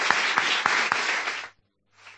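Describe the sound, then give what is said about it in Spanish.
Audience applause bursts out as dense clapping with a few sharper claps, then stops abruptly after about one and a half seconds before a brief, fainter return. “Un aplauso, venga, para todos vosotros que estamos aquí.”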